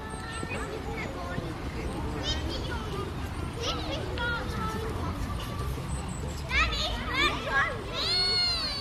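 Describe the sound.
Group of children playing together on a garden lawn, accompanied by their teacher: a busy, continuous mix of high excited voices, calls and shouts overlapping throughout, with a louder burst of shrieks near the end.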